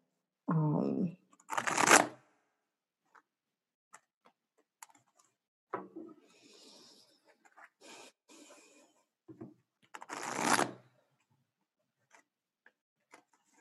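Tarot cards are shuffled for a reading in a few brisk riffling bursts, separated by quiet gaps with scattered soft taps and light handling of the deck.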